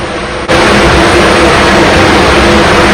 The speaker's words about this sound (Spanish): Inició el proceso. Arrancó el motor.